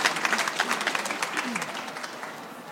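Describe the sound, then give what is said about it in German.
Audience applause honouring the winner of the Leipzig Book Prize for European Understanding: a hearty burst of clapping with individual claps audible in the mix, its level wavering and easing slightly toward the end. “Und ich bitte Sie nochmal um einen kräftigen Applaus dafür.”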